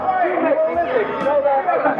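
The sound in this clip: Bustling crowd chatter: a dense, steady babble of many overlapping voices that stays at an even level throughout.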